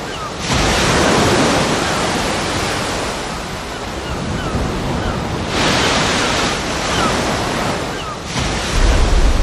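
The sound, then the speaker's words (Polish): Ocean waves on Earth roll in as a loud, broad surf roar, swelling and easing a few times with a steady wind-like hiss running underneath. “Posłuchajmy, jak słychać najpierw na Ziemi, a później jak słychać na Marsie właśnie odgłosy oceanu.”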